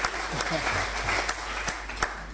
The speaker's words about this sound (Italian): Gli facciamo un applauso, benvenuto lì al podio.